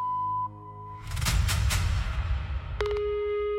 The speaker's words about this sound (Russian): Оставьте сообщение после звукового сигнала.